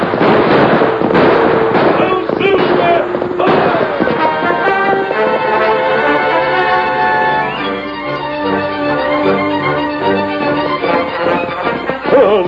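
A few sharp gunshots as a posse chases a masked rider on a white horse. The shots crack over loud orchestral music in the opening seconds, and the music then continues alone.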